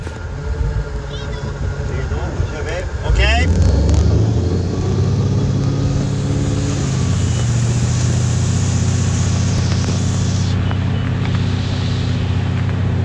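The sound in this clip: A motorboat on a lake gives a quieter low hum with a brief voice at first, then the engine surges into a loud, steady rumble mixed with rushing wind.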